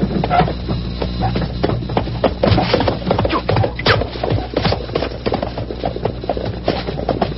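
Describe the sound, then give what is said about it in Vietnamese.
A horse gallops, its hooves drumming out rapid, steady beats without a break throughout, loud and dense against a low rumbling background. “Quân sư, phía trước người phi mã tới kìa.”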